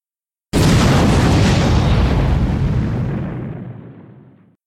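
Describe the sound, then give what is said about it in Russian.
A loud, abrupt explosion with a deep, rumbling roar strong enough to seem to shake the ground, then a slow fade over several seconds, with no voices. “Вот это был взрыв! Казалось, земля содрогнулась.”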